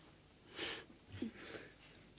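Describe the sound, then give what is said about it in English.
A person gasps, a faint, breathy rush of air drawn in sharply, followed by a second softer breath a moment later. “Did you hear that gasp that I just did? Like, I don't think I've ever done a gasp like that.”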